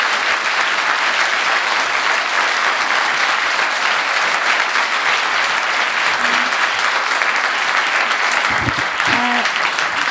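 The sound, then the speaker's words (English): An audience applauds at the close of a question session after a talk, with dense, steady clapping throughout and a brief voice near the end. “So thank you for attending. Give a warm round of applause to Hong Fu”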